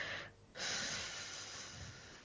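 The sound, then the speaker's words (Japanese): A deep, audible breath taken to calm down: a brief quieter dip, then a long, steady rush of air that fills the rest of the moment, with no talking. “ちょっと待って、落ち着けまずお前。はい、深呼吸。”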